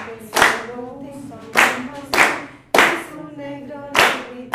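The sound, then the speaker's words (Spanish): Hands clapping a rhythm in a children's music lesson, several sharp, loud claps spaced at fairly regular intervals, with a voice heard between the claps. “Hagamos esta con las palmas. Un, dos, tres, cuatro.”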